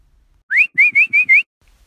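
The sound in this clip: A person whistles five short, bright notes in quick succession, alone. The first note slides upward and the remaining four are steady, evenly spaced and similar in pitch.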